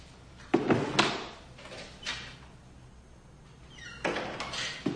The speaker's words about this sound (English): his boot repeatedly smacks against a cabinet until he eventually comes to a stop